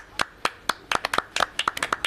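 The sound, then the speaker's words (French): Sharp hand claps from a small group of men applauding themselves, many quick irregular claps with no voices. “Merci messieurs, vous pouvez vous applaudir.”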